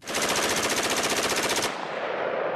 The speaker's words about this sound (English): an Alabama gun dealer who is authorized to sell machine guns to law enforcement agencies first demonstrates a semi-automatic weapon, one shot at a time, and then a fully automatic burst.